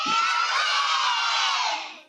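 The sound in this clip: Children in a studio audience at a kids' programme shout and cheer loudly together, a sustained high-pitched roar that holds steady and then drops away abruptly near the end.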